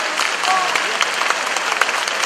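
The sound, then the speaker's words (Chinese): Warm audience applause at a Buddhist gathering as a guest of honour is welcomed, dense and even clapping that runs steadily from start to finish. “现在让我们以热烈的掌声”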